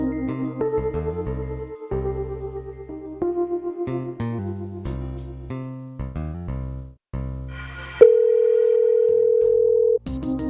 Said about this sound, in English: Calling the hotel.